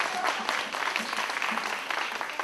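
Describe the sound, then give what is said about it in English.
Thunderous applause as a boy comes to the stage, a loud, dense burst of clapping from a crowd that continues throughout. “He comes to the stage to thunderous applause!”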